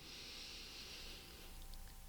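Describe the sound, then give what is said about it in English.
A big inhale through the nose during a guided meditation: a soft, airy hiss that lasts over a second and then fades, very quiet, with no talking. “One last big inhale through your nose.”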